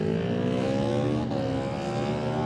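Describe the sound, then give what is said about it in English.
Engine roar from a Kawasaki Z650 motorcycle racing past during a road race. The loud, steady drone is rich in harmonics and fills the whole clip with no break. “He's in on a Z650. It is noisy, even up here.”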